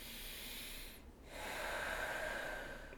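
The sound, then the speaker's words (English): A slow, deep breath in upright posture, heard alone as a loud, airy rush of air that briefly breaks off partway through and then resumes in a longer, steady stream. “So, for instance, upright posture, deep breath.”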